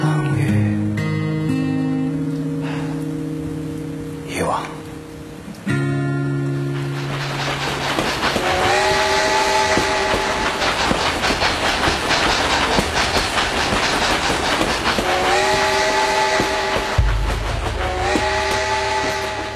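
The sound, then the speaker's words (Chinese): A luxury passenger train on long African routes rumbles along with a rhythmic clickety-clack of wheels and several loud whistle blasts over the steady running noise. “非洲之傲豪华列车，这是有着10多条线路的，穿越了非洲大陆的5个国家。”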